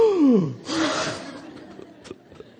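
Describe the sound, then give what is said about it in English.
A single voice imitates the audible gasp of a shocked church crowd of several hundred people: a falling vocal tone, then a sharp, breathy intake that fades to quiet. “there was an audible gasp, apparently, when he walked in”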